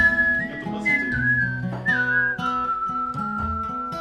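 Whistled melody carried over a played song's backing instruments, sustained clear tones gliding and stepping between notes while the steady accompaniment continues underneath.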